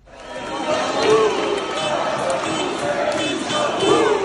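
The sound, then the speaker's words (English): Protesters in the streets of Tirana chant as they march against Prime Minister Edi Rama, a steady crowd roar with rising and falling voiced calls carried throughout. “This has been the sound in the streets of Tirana every evening for the past 2 months. Protesters gather outside the offices of the embattled Prime Minister, Edi Rama, and then march throughout the various neighbourhoods in the city.”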